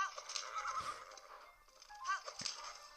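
A horse whinnies and hooves pound at a gallop in a Zelda video game while riding across the land of Hyrule, the sounds faint and low throughout.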